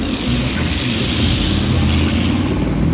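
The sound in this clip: A car engine revs hard as the car accelerates, a dense, loud, unbroken roar that holds steady throughout.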